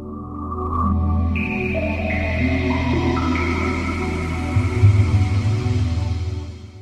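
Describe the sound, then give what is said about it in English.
A Sega Dreamcast video game console plays its startup sound: layered synthetic tones enter one after another and build into a sustained, shimmering chord that swells, then fades out at the end. “That's the sound of a Sega Dreamcast starting up.”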